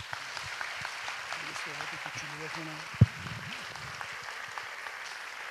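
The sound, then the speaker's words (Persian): Audience applause after a call to honour a guest, heard as a steady patter of many hands clapping throughout. A voice talks over it, and one sharp louder thump stands out near the middle. “به افتخار این بزرگوار دست بزنید.”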